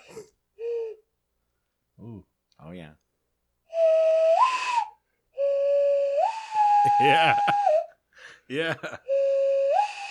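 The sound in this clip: A person whistles an imitation of a loon call, holding long steady tones that step upward in pitch, with short puffs and breathy warm-up blows between the notes.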